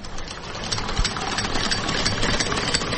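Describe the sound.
A sewing machine used for home tailoring runs continuously with a fast, rattling mechanical whir, an even buzzing chatter that holds steady throughout without pauses.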